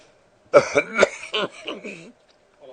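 A few harsh coughs burst out in quick succession with a throaty, throat-clearing edge, then trail off into quiet.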